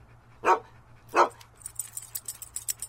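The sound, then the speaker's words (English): Two sharp barks from a dog, a sound-effects-library recording, spaced under a second apart, followed by a quick run of light, high-pitched rattling, with no talk. “Just some random dog that was recorded at some point in the past and put into a sound effects library.”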